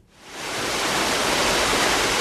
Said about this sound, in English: Jim Bechtel watches a stream stair-step its way down a gentle waterfall and into a limestone pit.